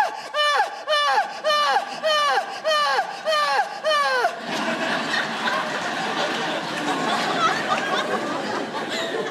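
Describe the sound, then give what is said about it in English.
A voice imitates loud, melodramatic crying: a run of rhythmic wailing sobs, each dropping in pitch, followed by audience laughter and chatter. “This like very loud, melodramatic way of crying that I like to call Greek tragedy crying. And it sounds kind of like this.”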